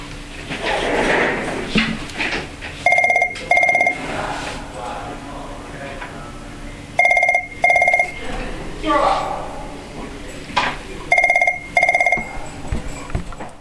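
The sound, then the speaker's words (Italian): A telephone in a museum office rings with incoming calls in three double-burst rings, each a bright, rapid electronic trill, while a voice talks in the gaps between them. “Rispondo alle chiamate che arrivano.”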